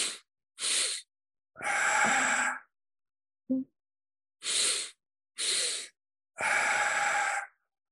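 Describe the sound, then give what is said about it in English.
Breathing exercise for calming down: two quick sniffing inhales through the nose, then a longer, airy exhale through the mouth. The pattern is heard twice, with a pause between rounds and no talking. “a double inhale through the nose and a longer exhale through the mouth. So again, if people can listen and can just follow me.”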